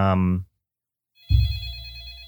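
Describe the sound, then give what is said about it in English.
A phone ringing: a steady electronic ring starts after a short silence and continues to the end. “Do you hear that? Is that my phone's not ringing?”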